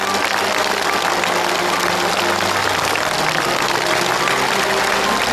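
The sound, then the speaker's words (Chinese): Loud, dense applause from a studio audience at a family-centred event, a steady wash of many hands clapping without pause for the whole stretch, with no voices over it. “我们为他热烈的鼓一次掌。”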